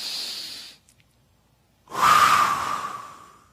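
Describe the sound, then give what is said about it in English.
A group deep breath: a soft airy draw of breath, a pause, then a longer and louder breathy exhalation that slowly fades, with no talking. “Everybody take a deep breath. Ready?”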